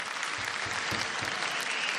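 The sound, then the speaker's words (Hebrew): Steady, dense applause fills the whole moment as a crowd honours a rabbi and Knesset member at a public ceremony. The clapping is loud and even throughout, with no clear break. “בהחלט מגיע לך הרבה מחיאות כפיים”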